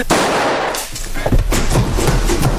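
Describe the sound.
Revolver gunfire, a loud sharp blast followed by a dense noisy roar and further crackling bursts that keep the level high throughout.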